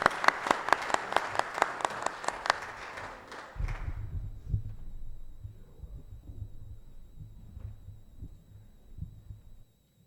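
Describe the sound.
Audience applause welcoming a speaker to the stage: many quick claps for a few seconds, then fading into a low, steady hum.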